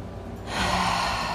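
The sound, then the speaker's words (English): A deep, energizing breath taken during a guided breathing exercise: a quiet start, then a long, airy rush of breath that swells and holds steady to the end, heard alone without talk. “Inhaling clean, energizing inhales. Exhaling anything that no longer serves you. One more, my friends.”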